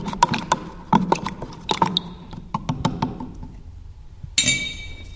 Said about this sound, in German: Ich muss mal die ein bisschen mischen, die Tinte, wo der Satz, also der Ruß tut sich immer ein bisschen am Boden festsetzen. Also die Tinte gut mischen.